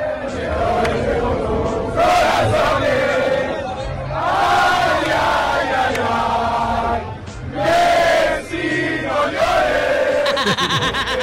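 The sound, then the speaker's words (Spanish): Loud crowd of Spanish football fans chanting Cielito Lindo together in swelling sung phrases, with shouts and cheers between the lines. “El cielito lindo. Cantado por los españoles.”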